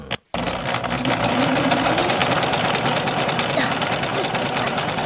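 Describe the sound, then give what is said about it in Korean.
A foot-treadle sewing machine runs as two sisters pedal it at home: a dense, rapid mechanical whirring and rattling that starts after a brief silent gap and then holds steady and loud to the end. “열심히 재봉틀을 굴리는 보희와 문희.”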